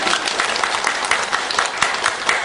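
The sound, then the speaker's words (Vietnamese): Audience members at a Buddhist dharma talk clap their hands in a lively, even patter of many palms that holds at a steady level throughout. “Tự mình khen mình, ai không vỗ tay là người đó không tự khen.”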